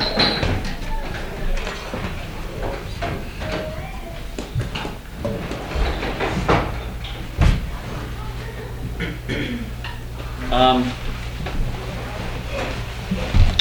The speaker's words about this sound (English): But I'll close this door.